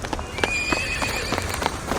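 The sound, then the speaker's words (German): Horses galloping across a square, with many quick clip-clop hoofbeats in an uneven running rhythm and a high, drawn-out whinny riding over them. “Zwei von ihnen reiten bereits schnell über den Platz.”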